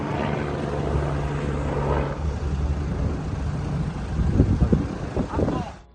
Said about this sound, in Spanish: En Palermo, desde esta mañana sobrevuelan avionetas de lucha contra el fuego.